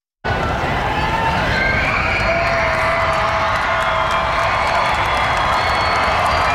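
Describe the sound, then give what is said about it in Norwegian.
A crowd of over 100,000 at Slottsplassen in Oslo roars and cheers for the Norwegian men's football team. The loud, continuous wall of sound starts abruptly and stays steady throughout, with shrill whistles above it. “De norske fotballherrene skal nå kjøre gjennom Oslos gater etter å ha blitt tatt imot på Slottsplassen. Slik hørtes det ut da laget gikk ut til over 100 000 frammøtte.”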